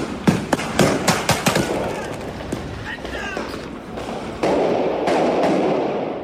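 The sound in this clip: Firecrackers and blank pistols go off during New Year's Eve riots: several sharp, loud bangs in quick succession at the start, then a dense, steady roar of noise with voices throughout.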